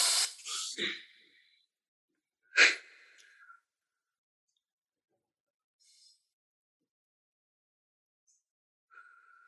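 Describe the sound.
Deep breaths drawn in through the nose come as breathy, hissing inhalations: a longer one first, then a short sharp one, followed by faint, brief breath sounds separated by silence.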